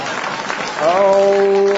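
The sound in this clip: A studio audience at a television quiz show applauds in a short, lively burst of clapping that gives way to a held voiced tone after under a second.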